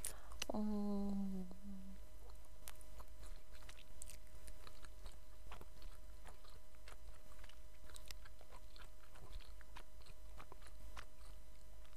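Festival food with crispy skin is chewed with faint, scattered crunches and bites, after a short voiced sound at the start.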